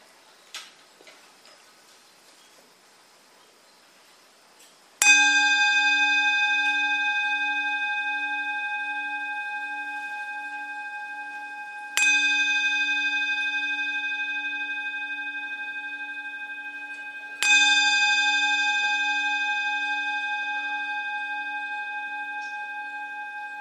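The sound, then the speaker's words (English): A bell is struck three times, each strike giving a bright, sustained ringing tone that decays slowly, with the next strike sounding before the last fades; faint small noises come before the first. “let's start by listening to the sound of the bell.”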